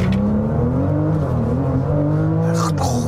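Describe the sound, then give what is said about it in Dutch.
Full-throttle launch-control acceleration from a car with an eight-speed Tiptronic automatic gearbox. The engine roar is loud and unbroken, and its pitch climbs steadily through the run. “Meteen launch control doen. Is dus dan oké. Voet rem, voet vol gas.”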